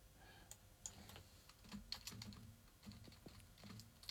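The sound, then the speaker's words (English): Quiet typing on a computer keyboard: irregular clicks of keystrokes come in short uneven runs with brief pauses. No voices are heard. “We can hear. We can hear you type now. Oh, sorry about that. I'll just go away and type more. Thank you. I was wondering what you did. You just started to type, and I'm thinking we can hear the typing in the background.”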